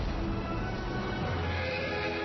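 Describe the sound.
A horse whinnying in the War Horse film trailer, set into a dense, loud, steady soundtrack with no speech.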